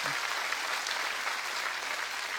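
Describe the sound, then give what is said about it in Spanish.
Applause from a church audience, a dense, even wash of clapping held at moderate level throughout, with no clear voices over it. “Dar un aplauso.”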